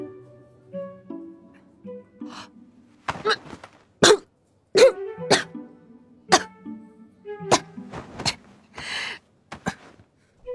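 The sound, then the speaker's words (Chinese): Harsh, repeated coughing and throat-clearing from someone choking on popcorn stuck in the throat comes in many sharp, uneven bursts with strained gasps between them. “两颗爆米花卡在喉咙里上不去下不来，差点把他眼泪给逼出来。”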